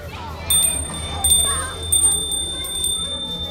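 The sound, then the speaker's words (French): A small school bell rings for the end of recess, bright high-pitched strikes repeating several times at a steady pace against faint background noise. “La clochette vient de sonner. La récréation est terminée.”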